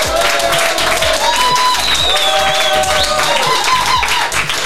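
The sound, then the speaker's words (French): A live studio audience applauds at the final of a televised academy competition, continuous clapping under a pulsing music beat. “Vous l'aurez compris, derrière moi, il y a du public. Cette émission, cette finale est en public.”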